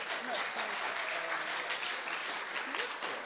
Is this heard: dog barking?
no